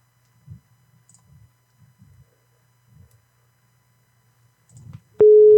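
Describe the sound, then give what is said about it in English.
A telephone ringback tone on a call: faint low murmurs and soft clicks come first, then a loud, steady, low-pitched tone cuts in abruptly at the end. “It's ringing.”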